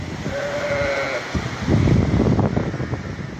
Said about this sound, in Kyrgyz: Койлор короодо калды, короону аралап кетип атат сел мына.